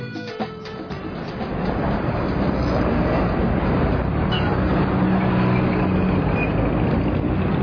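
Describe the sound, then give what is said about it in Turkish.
Street traffic on a city avenue beside a bus stop makes a broad, steady roar of passing vehicles that swells after about two seconds and then holds loud and unbroken. “Hadi şimdi caddeye çıkıp Emirgan otobüsüne binelim.”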